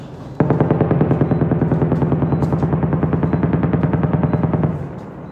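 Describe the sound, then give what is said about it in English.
Rapid, sustained automatic gunfire during intense shelling on a war-zone street in Rafah: a loud, unbroken stream of many sharp shots that holds steady for several seconds and then fades out, with no talk. “It's a very intensive shelling going around me.”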